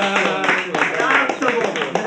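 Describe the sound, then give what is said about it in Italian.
Clapping breaks out from the audience at an Italian poetry reading, with scattered, fairly loud hand claps mixed with people talking over them. “Abbiamo fatto proprio, non è una cosa messa. È una cosa spontanea. Alza il cartello, applausi.”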